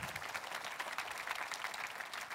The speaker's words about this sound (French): Et est-ce qu'on peut applaudir à l'avance Dieu qui va le faire?